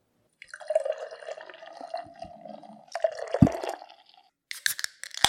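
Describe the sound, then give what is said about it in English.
Beer poured from a freshly cracked container: a steady fizzing, trickling liquid sound, with a few sharper splashing bursts near the end and no voices. “And we just cracked open a beer.”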